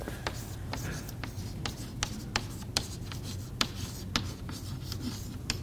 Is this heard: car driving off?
no